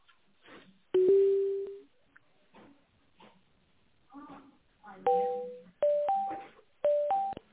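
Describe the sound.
Telephone line tones play while a call is transferred: one longer tone early, then a quick run of short tones stepping between pitches. Faint talk and line noise fill the gaps.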